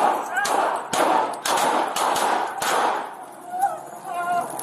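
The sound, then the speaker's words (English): Several sharp gunshots ring out during a police confrontation in a restaurant's outdoor seating area, as irregular, hard bangs over a noisy background. “Careful! Shots fired!”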